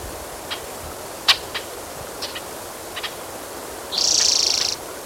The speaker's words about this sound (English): There's blackbirds.